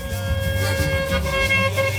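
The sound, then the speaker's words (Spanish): Many car horns honking together on Ruiz Cortines avenue. Several overlapping sustained tones blend into a dense, steady blare at moderate loudness throughout. “¡Eso! ¡Órale, todo el mundo pitando!”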